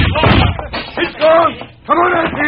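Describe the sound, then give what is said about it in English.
A lamp is smashed as a sound effect in a western radio drama: a heavy, booming crash bursts at the start, followed by raised male voices talking urgently. “Wait! He smashed the lamp. The place is on fire.”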